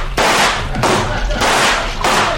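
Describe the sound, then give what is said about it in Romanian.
Gunshots are fired at a crocodile that has climbed onto a raft, heard as four sharp, loud bursts in quick succession, each starting abruptly and trailing off in a broad noisy rush. “Trageți! E timpul să tragem, domnule! Un crocodil a reușit să se urce pe plută!”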